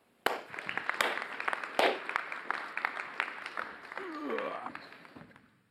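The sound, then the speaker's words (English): An audience applauds to welcome a guest speaker at a morning gathering. Scattered sharp claps sound over a busy crowd wash, a voice rises briefly near the end, and the noise fades out. “So would you put your hands together and give him a warm Revision welcome?”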